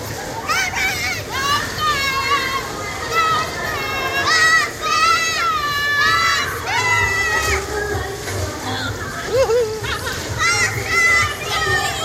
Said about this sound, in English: And listen to them girls scream. Look, the girls are going to scream like mad.